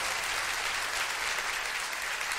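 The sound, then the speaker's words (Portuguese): Applause from a church audience at a Portuguese-language evening worship service, a dense, even wash of many hands clapping that holds at a steady level without a break. “Esse aplauso está muito fraco. Exalte ao Senhor nessa noite com um forte aplauso.”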